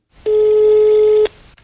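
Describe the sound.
A single steady telephone ringback tone sounds for about one second as a man places a call to a sex worker, then cuts off into near silence.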